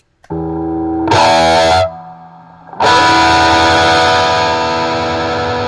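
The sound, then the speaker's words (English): An electric guitar plays through heavy distortion and reverb. A sustained buzzing tone is cut by a brief, louder harsh burst, then a long, loud distorted chord rings out and washes on to the end. “stop with the reverb and distortion.”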